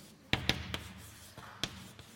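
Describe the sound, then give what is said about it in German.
Handwriting while a mathematical formula is written out: faint scratching broken by a few sharp, quiet taps of the writing tool, spaced irregularly and with no voices. “Ich schreibe sie mal hin.”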